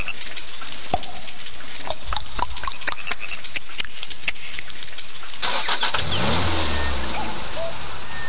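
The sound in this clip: A Škoda Octavia's car engine cranks through a long run of rapid, even clicks, then catches and bursts into a loud, steady roar with a low hum underneath.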